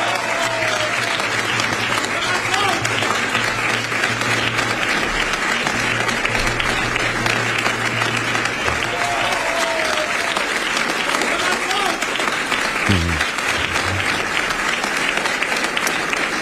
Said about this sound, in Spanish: Aplausos en la sede de Vox a esta intervención.